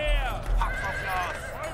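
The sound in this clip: Horses whinny as they are harnessed to war chariots before battle. A high, wavering neigh rises and falls under a speaking voice, with a low rumble running beneath.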